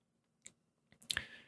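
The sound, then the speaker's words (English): Board game visitor pieces are shuffled in a bag: faint scattered clicks, then a brief busier burst of rattling and rustling that trails off softly. “Then I'm going to shuffle up the bag and I'm going to draw 2 blue visitors, or I'm going to draw 2 visitors.”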